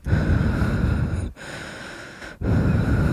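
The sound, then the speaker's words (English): Heavy breathing through a mask: loud, hoarse, raspy breaths that run almost continuously, broken by two brief gaps into long labored draws and releases. “There's some heavy breathing going on behind me because this guy can't breathe in this mask.”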